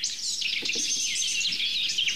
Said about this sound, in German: der sogenannte Subsong oder Paarbildungs Ruf, Lied, Gesang der Mönchsgrasmücken in diesem Fall.